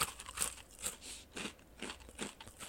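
Thick rice crackers crunch as someone chews, giving a series of crisp, brittle crackles in uneven bursts. The bites are fairly faint and heard alone, with no talking.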